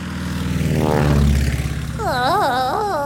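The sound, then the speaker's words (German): An airplane flies with a loud, low propeller-engine drone that swells and fades, then gives way to a warbling tone that repeatedly rises and falls. “Und Flugzeug! Flugzeug, genau.”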